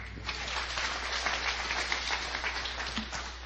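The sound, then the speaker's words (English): Applause from a church audience, a dense, steady wash of many hands clapping that holds an even level for the whole few seconds. “Yeah, give him a hand.”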